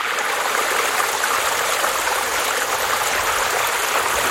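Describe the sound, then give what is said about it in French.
Water flowing in a stream makes a steady, even rushing and trickling sound, continuous throughout with no voices. “Il y a de l'eau, forcément.”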